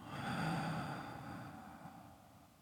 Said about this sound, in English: Let's take one more deep breath in through your nose and out through your mouth.